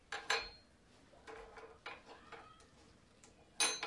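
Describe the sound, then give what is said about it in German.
Opening a gingerbread stash and scooping out gingerbread: a few sharp clinks and clatters separated by quiet gaps, with a final louder knock near the end. “Mach ich mal unser Lebkuchenversteck auf. Schaufel ich dann mal raus.”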